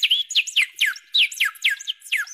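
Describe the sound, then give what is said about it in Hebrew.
Nightingale song from a gold-plated, jewel-studded wind-up mechanical bird: many quick, bright chirps, each sliding downward in pitch, repeated in a steady lively rhythm with no voices. “כשמתחו את מפתח הקפיץ שמתחת לזנבה, היה הזנב עולה ויורד. המקור נפתח, ושירת זמיר נהדרת הייתה פוקעת מן המכונה היפהפייה והמשוכללת.”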